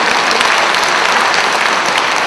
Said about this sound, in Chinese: 我不晓得你们鼓掌是赞同这个话对不对